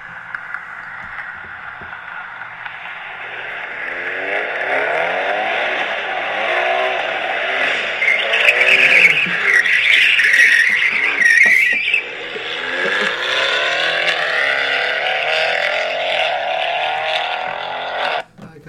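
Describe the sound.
A car driven fast and skidding makes a sustained roar of engine and tyre noise that rises and falls in waves. It is loudest in the middle stretch and cuts off abruptly at the end.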